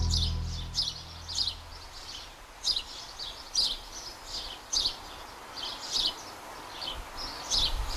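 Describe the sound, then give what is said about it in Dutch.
Sparrows chirping in a large holly bush, a busy, lively chatter of many short, high chirps in irregular bursts over faint steady background noise. “Ik sta hier naast een grote struik hulst en u hoort de mussen die daarin zitten. Gezellig kwetterend.”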